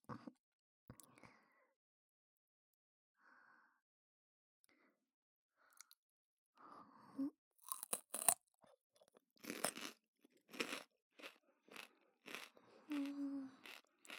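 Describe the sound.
Crisp crunching of crunchy food being bitten and chewed: loud, irregular bursts of crackly bites come in quick succession after a mostly quiet opening with only faint small sounds.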